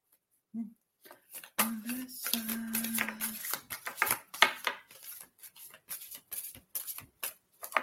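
A deck of cards being shuffled while cards are drawn for someone: a series of crisp, irregular riffling and slapping clicks, with a brief voiced hum early on.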